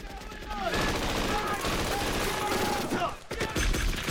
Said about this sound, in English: Rapid fire! Frankie, Peter, and the rest of their squad are pinned down by enemy fire.